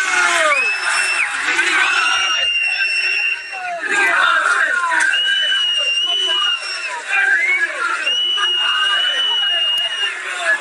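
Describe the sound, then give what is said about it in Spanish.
Loud, continuous shouting and whooping from a crowd as the Real Mallorca football team's coach departs. Many voices yell together, with shrill calls rising above the din and only brief dips in volume. “acaba de marchar el autocar del Real Mallorca, gritos de jugadores mercenarios. Este era el sonido de hace apenas un minuto.”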